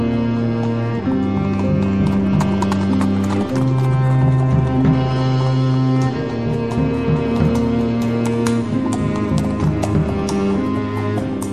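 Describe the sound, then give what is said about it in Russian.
Horse hooves clip-clop in a steady, continuous run as three horses, one white, one black and one dun, gallop along. The hoofbeats sit over a sustained, droning tonal backdrop that shifts in pitch a few times. “Едут три богатыря на белом, черном и саврасом конях.”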